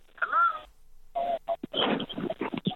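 A caller's radio plays down a telephone line, thin and narrow-band: a short tonal, wavering passage, a brief gap, then a busier, choppier stretch of muffled sound that continues to the end.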